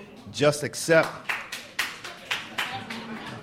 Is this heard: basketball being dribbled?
no